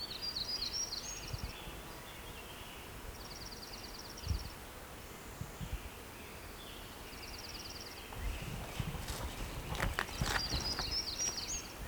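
A bird calls in a few short, high, rapid trills separated by long pauses. The calls are faint over a steady low background hiss.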